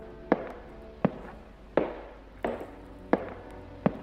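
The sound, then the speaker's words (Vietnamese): Knocking comes from outside a door at night: six sharp, clacking knocks at an even, unhurried pace, each with a brief ringing tail, alone with no voices. “bây giờ nó lại vang lên như là chuông báo thức vậy, cứ lộc cà lộc cộc vang lên trong đêm khuya vắng lặng.”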